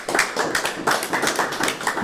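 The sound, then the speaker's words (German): Audience applause for a participant at a Low German dialect evening: a steady, even run of many claps in a regular rhythm, fairly loud and alone without talk. “Applaus für Gisela.”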